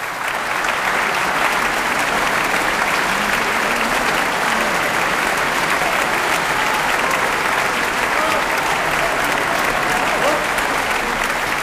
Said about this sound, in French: Voilà, vous entendez le bonheur, les bravos du public du Grand Théâtre de Provence, tandis que Martha Argerich vient les remercier, saluer une nouvelle fois